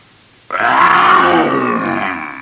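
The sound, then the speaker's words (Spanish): A single fierce lion roar, an ogre turning into a lion in a fairy tale, bursts in suddenly as a deep, rough growl and holds for about two seconds, easing off slightly at the end. “el ogro Tragaldabas se transformó en un fiero león.”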